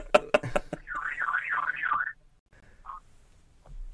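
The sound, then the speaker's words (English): A warbling electronic alarm tone wavers rapidly up and down for about a second. A few sharp taps come before it, and a short blip follows. “hold on, man, my damn alarm going off, hold on”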